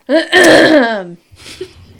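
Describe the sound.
A woman clears her throat: a short voiced burst, then a longer rasping one, followed after a pause by a quieter breathy sound.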